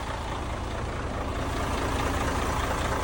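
A truck engine runs with a steady, loud, low rumble that holds constant throughout, with no break in the drone.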